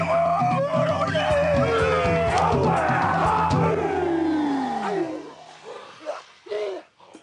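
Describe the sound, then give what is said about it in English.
Maori cultural performance in Auckland, New Zealand: a group of voices shouts and chants forcefully, with a long cry gliding downward in pitch, then thins to a few short, loud vocal bursts with gaps between them near the end. “Ooh, girls, welcome to Auckland, New Zealand. And I have someone here to explain a little bit what you've just seen, which was a Maori performance.”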